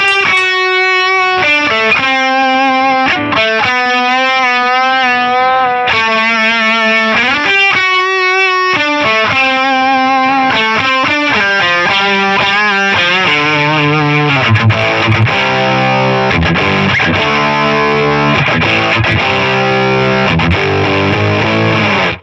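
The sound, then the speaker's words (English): Electric guitar driven through an overdrive pedal with a Rat-like distortion tone, first ringing sustained notes and chords with pauses between, then busier, denser, heavily saturated playing throughout the second half. “And it just sounds like a Rat. Yeah. Probably my least used overdrive pedal.”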